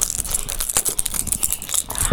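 Rapid metallic jangling of keys shaken as a toy for a baby, many bright jingles running continuously and unevenly.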